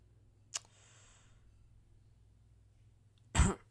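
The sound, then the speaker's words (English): Faint coughing and throat clearing from someone choking: a short sharp cough, then a long quiet gap, then a louder, rough throat-clearing burst. “I could feel it in my throat, and I was like, I'm gonna die on tape. You're choking and I'm spaced out.”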